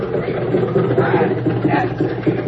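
An automobile engine idles on a road as a driver stops to offer a ride. The steady, low chugging drone continues without a break, muffled and thin.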